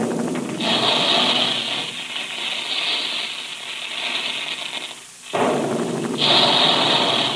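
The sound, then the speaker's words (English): Big guns firing as a radio sound effect in a puffed cereal advertisement: a long, loud roaring boom of broad noise, dipping briefly near the end before a second heavy blast takes over. “There go the big guns now”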